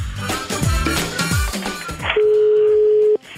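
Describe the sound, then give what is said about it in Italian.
A telephone line tone sounds as a call is placed: a single steady, unbroken mid-pitched tone holds for about a second, then cuts off abruptly, following a dense, busy stretch of sound. “Chiama Borghezio, lo ha chiamato, sentite.”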